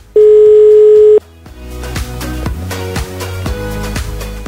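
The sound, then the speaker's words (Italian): A single steady telephone ringing tone on an Italian line, a pure buzzing note lasting about one second, is followed by music with bright rhythmic notes. “Suona libero.”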